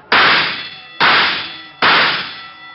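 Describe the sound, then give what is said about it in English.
Three loud metallic clangs of shots hitting bullseye targets at a shooting gallery. They are evenly spaced, and each gives a bright ringing ping that decays before the next. “That's pretty good shooting. Think nothing of it. Just 3 more bullseyes and you win a doll.”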